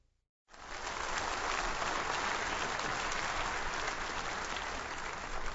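An audience breaks into applause to welcome a senior pastor, with the clapping starting abruptly after a brief silent moment and then continuing as a steady, full roar.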